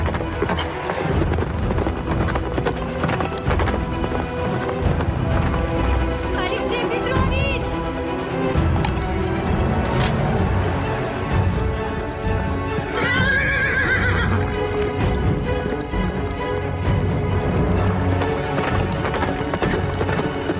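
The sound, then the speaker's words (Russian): A horse gallops with a ridden rider chasing someone, its hooves making a dense, continuous pounding throughout. High, wavering neighs break through the din, one clearly past the midpoint. “Представительный мужчина на лошади догоняет Полину.”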